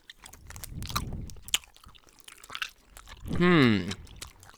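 Chewing on a wrapped cinnamon-flavoured treat: a run of crisp, wet crunches and clicks close to the mouth, followed by a short voiced hum and a few more soft bites.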